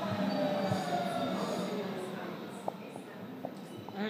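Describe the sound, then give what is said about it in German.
A new train rumbles steadily at a station, with a faint metallic wheel squeal running underneath. People talk over the noise, and a few sharp clicks sound toward the end as the rumble eases slightly. “Das ist sogar eine neue Bahn. Das ist doppelt gut.”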